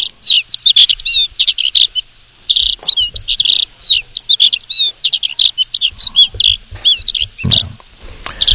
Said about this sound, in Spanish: Vamos a escuchar nuevamente ese ave.